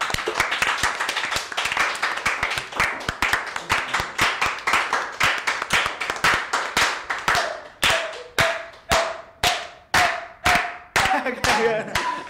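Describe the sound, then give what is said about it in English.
Hands clapping in applause as a guest is welcomed: many quick, loud claps run together, then thin out into fewer, separate claps toward the end. “Ladies and gentlemen, please give a hand for Isaiah Avalar.”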